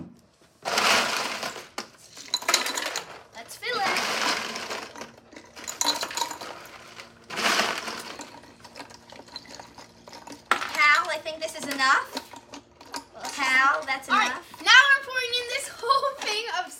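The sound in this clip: Ice and plenty of salt are poured into the outer chamber of an ice cream maker in several loud, rattling bursts separated by short pauses. People then talk over softer clinking in the second half.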